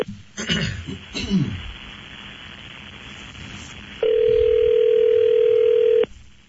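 A telephone line tone sounds as a long-distance call is placed: one loud, steady mid-pitched tone holds for about two seconds, then cuts off. Earlier there is throat clearing and low background noise.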